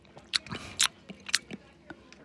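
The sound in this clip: Slurping sips of hot, steaming microwaved coffee: many short, wet mouth sounds with quick intakes in an uneven rhythm, some louder and noisier than others.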